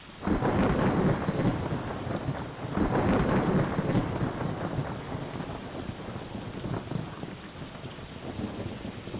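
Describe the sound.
Rain and thunder: two heavy rumbling swells of thunder early on, then a steady rain hiss that continues at a lower, even level.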